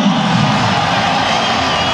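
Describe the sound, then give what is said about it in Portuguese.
A football stadium crowd roars and applauds the home goalkeeper as the lineup is announced, a loud, continuous wash of massed voices with whoops and shouts mixed in. “Bacana, bem aplaudido o nosso goleiraço.”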